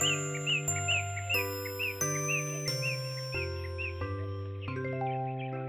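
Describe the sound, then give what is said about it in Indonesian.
Morning birds give short, bright chirps again and again at an even pace, over a soft bed of sustained chiming tones that shift pitch in steps. “Nah, dengar itu. Ayam dan burung juga sudah bangun.”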